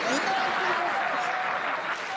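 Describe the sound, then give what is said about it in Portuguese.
Audience applause welcoming a performer back to the stage at a concert show: a steady, continuous wash of clapping, fairly quiet, with voices mixed in. “Uma salva de palmas para o meu amigo Robbie Ray.”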